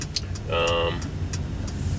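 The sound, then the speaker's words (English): A car driving on the road toward Hoboken to deliver parts gives a steady low engine and road rumble, with a brief voice speaking over it. “We're driving up to Hoboken now to deliver some parts.”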